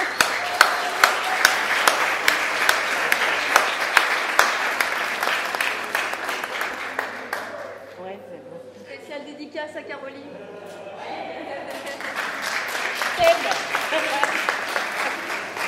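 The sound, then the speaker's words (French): Audience applause at the opening of an arts and literacy festival. Dense clapping from many hands eases off midway while a voice speaks briefly, then swells again and carries on to the end. “Un petit tonnerre d'applaudissements, s'il vous plaît.”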